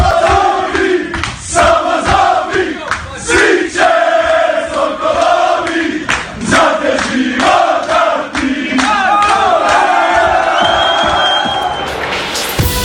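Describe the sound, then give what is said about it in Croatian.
The Croatian national football team celebrates loudly in its dressing room after a congratulatory visit from the Croatian president. A group of men shouts, chants and whoops in bursts, with the raucous noise continuing throughout. “A donosimo i dijelić atmosfere iz svlačionice kada je vatrenima došla čestitati predsjednica Kolinda Grabar-Kitarović.”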